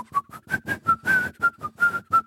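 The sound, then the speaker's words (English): A murderer in a film whistles In the Hall of the Mountain King: about a dozen short, clear whistled notes in a quick, steady staccato rhythm, with no other sounds. “the murderer, he goes around and he whistles in the Hall of the Mountain King, and it starts to become this kind of signifier that he's nearby, even if you can't see him on screen.”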